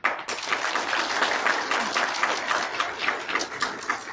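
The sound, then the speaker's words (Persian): Audience applause in someone's honor: steady, dense clapping of a crowd that holds evenly for the whole stretch, with no pauses. “همان به افتخار شما دست خواهند زد.”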